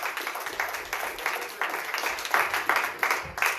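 Audience applause, a busy patter of many hands clapping at moderate volume. It swells and dips in small surges throughout.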